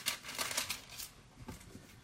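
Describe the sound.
Thin Bible pages rustle as they are turned to Isaiah 14, a quick run of light, papery flicks and crinkles, faint and with no voices.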